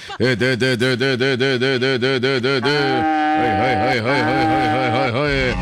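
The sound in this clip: A recently calved dairy cow moos at morning milking, a loud, sustained, wavering low that pulses rapidly for about three seconds, then breaks into a second, steadier call with a rising end.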